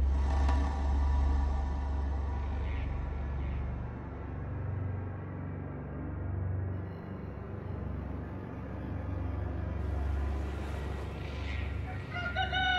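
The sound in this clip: A rooster crows at dawn in a riverside countryside setting, a few faint calls and clucks rising above a steady, heavy low rumble that runs throughout.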